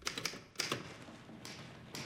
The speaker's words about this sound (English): Mrs. Lytton's typing at her desk by the light of a lamp